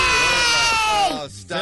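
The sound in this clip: Children cheering as a sound effect, a loud, dense shout from many young voices that holds steady, breaks off briefly near the end, then starts up again.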